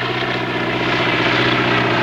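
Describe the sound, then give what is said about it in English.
A propeller-driven biplane drones as it descends and approaches, its engine and airscrew giving a loud, steady, even hum with a buzzing tonal edge that holds throughout. “Roger watches the propeller-driven biplane descend gently as it approaches him dead on.”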